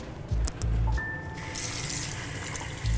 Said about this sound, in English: I'm wiping down heavily touched surfaces. I brought the wipes from home. I think I'm done. Now I wash my hands again.